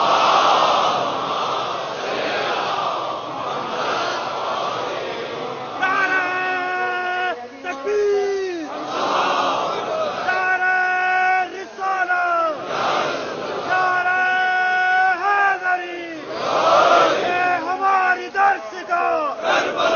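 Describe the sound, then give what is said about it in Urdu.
A crowd loudly recites salawat in unison, with strong chanted phrases rising in about four repeated waves. A softer murmur of many voices fills the gaps between them. “اس سے بہتر بلند صلوات ادا کریں،”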